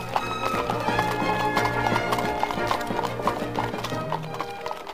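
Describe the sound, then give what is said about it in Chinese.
Horse hooves clip-clop as a horse-drawn carriage travels, a steady stream of many quick, crisp hoof strikes in a running rhythm, continuous throughout. “我们一行人押着侯波上了马车，雷斯垂德赶着车去了警察局。”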